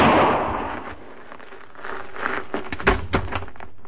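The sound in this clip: Gunshots ring out in a radio western drama: a few sharp, cracking reports cluster near the end, one noticeably louder than the rest, following a stretch of low rumbling noise with no speech.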